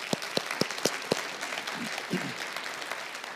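A church audience applauds online viewers joining a morning service. A few sharp, spaced claps come early and then fade into a quiet murmur.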